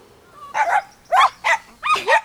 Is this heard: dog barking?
yes